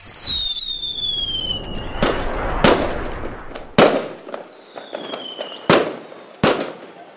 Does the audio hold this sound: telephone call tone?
no